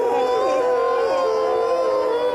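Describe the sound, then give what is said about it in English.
Several voices imitate howling in unison, holding long, wavering, mid-pitched tones that glide up and down for about two seconds without words. “I know what we could do. We could howl. Oh, all right. Can we practice that?”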